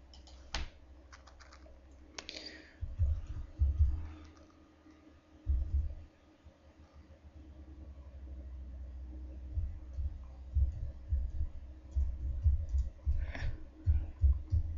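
Keys clatter on a computer keyboard as a message is typed: many irregular keystroke clicks in uneven bursts over a steady low hum.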